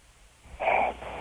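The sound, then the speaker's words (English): Snoring gasp from a man with sleep apnea: one loud, raspy, wheezing breath rises abruptly from quiet breathing, holds for about a third of a second, then drops back to soft, rough breathing. “That's sleep apnea, dude.”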